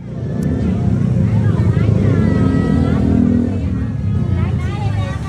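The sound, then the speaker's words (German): Busy Chinatown night market in Bangkok beside heavy traffic: a steady rumble of car and motorbike engines under constant crowd chatter, with voices throughout. “Das, was ihr da gerade hört, das ist der Night Market in Chinatown.”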